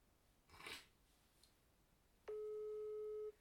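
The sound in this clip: A telephone ringback tone heard while a call waits to be answered: one steady, low electronic tone lasting about a second, preceded by a brief soft rustle of noise.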